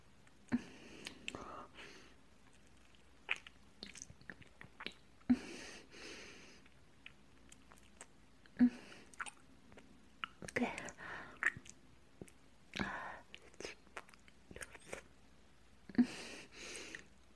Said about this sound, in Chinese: 没想到你是真的一点都不嫌弃我。如果你喜欢的话，那我喂给你多吃一点儿。